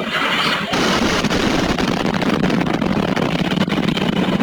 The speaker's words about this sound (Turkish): Rusya, Ukrayna'nın Sumi kentine güdümlü bomba yağdırdığı saldırı anları güvenlik kameralarına yansıdı.